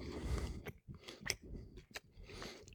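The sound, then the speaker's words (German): Chewing of crusty garlic ciabatta with a floured base, crisp baked top and fluffy crumb: a fairly quiet run of moist, crunchy bites in an irregular rhythm, with a few sharper crackling crunches standing out. “Und wenn ich das jetzt aufgebrochen habe, man sieht so hier ein paar Knoblauchstückchen drin. Mhm. Es ist sehr fluffig, typisch Ciabatta. Unten bemehlt, oben sehr kross gebacken.”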